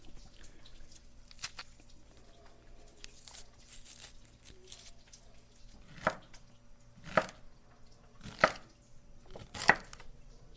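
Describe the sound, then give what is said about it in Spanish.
Chopping peeled pacaya for a salad: soft, muffled cutting at first, then four sharp, distinct chops at a slow, steady pace. “la pacaya, a pelarla y a picarla y ponérselo a la ensalada.”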